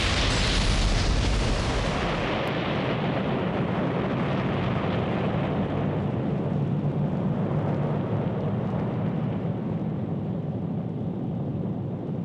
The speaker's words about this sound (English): What you have just experienced are weapons of war from the sister world below us, Earth.